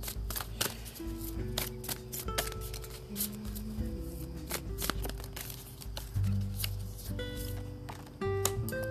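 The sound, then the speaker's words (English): Cards are shuffled by hand: many crisp flicks, riffles and light taps follow one another in an uneven rhythm, with a faint low hum underneath. “And our last card that I'm going to pull for you is the collective who are tuning in and listening.”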